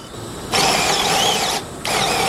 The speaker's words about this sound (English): So we're taking our misshapen socket, and with these hemisphere-shaped reamers, turning it back into a round shape.